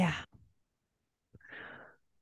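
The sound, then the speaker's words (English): Slow, deep breathing during a calm coaching session: a short, airy breath, then a pause, then a longer, soft, breathy exhale. “taking that nice deep breath”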